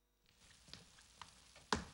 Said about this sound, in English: You're making eggs for breakfast? This isn't breakfast. It's an experiment.